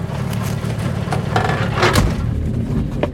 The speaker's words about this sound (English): I hear the engine before I see the car. A Chevy Caprice, yellow with dark stripes. A gypsy cab.